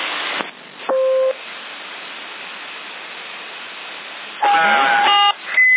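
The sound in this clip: A CB radio roger beep sounds amid steady hiss and static. Several brief electronic beeps break through the noise, with a short high tone near the end.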